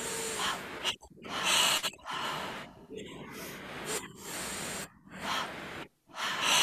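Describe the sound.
Slow, deep breaths from a guided breathing exercise, each inhale and exhale drawn out with a soft trailing tail. Breathy, airy rushes come in several long phases separated by brief near-silent pauses.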